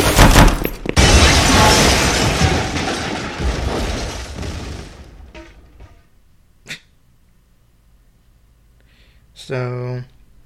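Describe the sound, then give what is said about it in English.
A building crumbles in a video game as the player's mini stronghold collapses. A loud, dense roar of rumbling debris lasts about five seconds and then fades, followed by a couple of brief, isolated sounds. “The building that was your mini stronghold crumbles as your killers prepare to assault you.”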